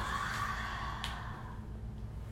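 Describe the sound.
A slow, quiet breath out during a breathing exercise: a soft, airy, sigh-like exhale that stays faint and even throughout.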